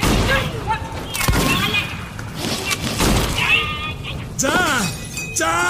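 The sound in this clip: Gunfire as a group opens fire from inside a besieged house: a few sharp, loud bursts of shots break through, mixed with tense, shouting voices.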